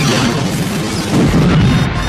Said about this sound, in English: Sensors registered an explosion behind him